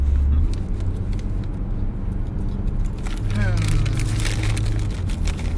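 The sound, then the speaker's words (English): Car driving along a road and slowing down behind a police car, a steady low engine and road rumble that runs throughout, with the engine note dropping in pitch partway through. “we're driving behind John Law. That's why the speed is suddenly dropping.”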